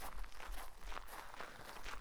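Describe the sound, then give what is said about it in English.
Footsteps of people walking back to an inn, a faint, fairly steady series of soft steps with no talk. “Come, I'll walk you back to the inn.”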